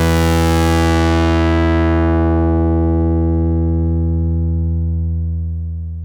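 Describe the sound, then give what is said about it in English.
A synthesizer tone has its filter sweep down from above, gradually stripping away the upper harmonics. A bright, buzzy sustained note steadily darkens and mellows over six seconds into a dull, hollow hum, holding steady loudness until fading slightly at the end. “Here's the sound of a filter coming down from above and gradually removing most of the harmonics.”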